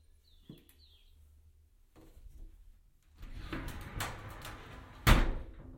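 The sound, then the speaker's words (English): A glass shower door on a shower cubicle is opened and closed, giving a few faint rattles and scrapes and then a sharper bump near the end. Brief bird chirps come first. “But the shower door sounds like this.”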